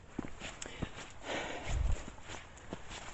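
Footsteps of a person walking outdoors past tree roots, with several soft, irregular thuds and scuffs over faint background hiss and a heavier low tread near the middle.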